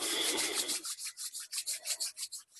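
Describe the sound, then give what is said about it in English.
Hands rubbed briskly together to create warmth during a meditation, a continuous dry friction at first that breaks into many quick, even rubbing strokes, alone without talk. “And if you've had your eyes closed, open the eyes gently or rub the hands together to create warmth.”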